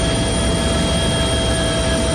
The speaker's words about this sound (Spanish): Este é o son do helicóptero que esta tarde trasladaba máis axentes das brigadas de extinción ata esa zona de montaña de Quiroga